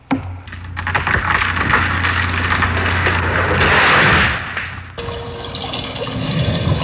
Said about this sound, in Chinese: 拔出了开山刀开始砍树